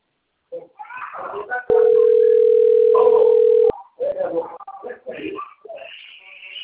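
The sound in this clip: An incoming telephone call sounds as a steady, single-pitched electronic tone lasting about two seconds, with people talking before and after it.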